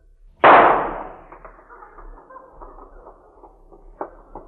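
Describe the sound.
A pistol shot puts down an injured stallion: one sharp, loud crack with a decaying tail, followed by faint scattered rustles.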